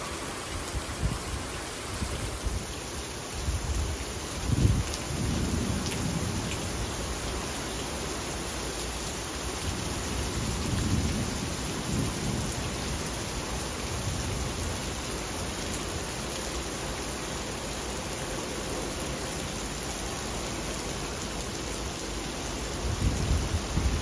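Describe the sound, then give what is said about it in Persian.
Heavy rain pours in a dense, steady hiss for the whole stretch, with a few low swells that suggest distant thunder. “صدای باران”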